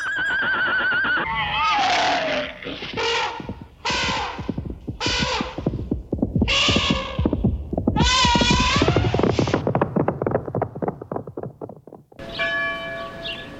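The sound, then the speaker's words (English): A horse neighs in a series of loud, shrill, wavering whinnies, one call after another with brief breaks in between, continuing through most of the stretch. “Give the nice horsey some sugar cubes.”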